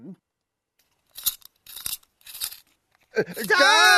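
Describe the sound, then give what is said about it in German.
A pencil sharpener works on coloured pencils in three short rasping grinds spaced evenly apart, and then a voice begins to speak. “Das ist ja das Geräusch. Das war der Bleistiftanspitzer, den wir da gehört haben.”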